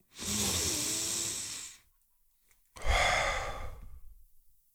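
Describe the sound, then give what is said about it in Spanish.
A deep breath taken in and let out: one long airy inhale, a short pause, then a breathy exhale that gradually trails off, soft and with no talk. “Inspira hondo. Llena tus pulmones y exhala. Vamos a hacerlo una vez más.”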